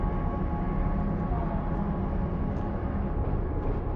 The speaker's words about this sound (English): She rides a subway train, holding onto a center pole with a dismal expression.